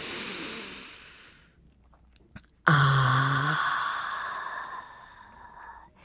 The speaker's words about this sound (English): And a deep breath in and exhale. And one more breath in.